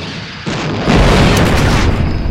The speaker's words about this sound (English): The starfighter exploded in a ball of white light.